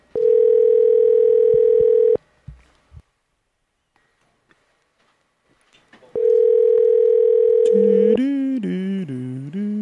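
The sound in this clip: Ringback tone of an outgoing phone call: a steady buzzy tone for about two seconds, roughly four seconds of near silence, then the tone returns and gives way to a different, wavering melodic tone.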